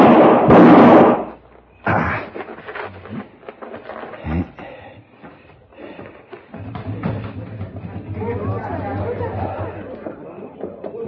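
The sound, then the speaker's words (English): A gunshot fired at a man in an alley bursts out loud and sharp at the start, followed by quieter knocks and people talking. “Somebody took a shot at me. They ran down that alleyway.”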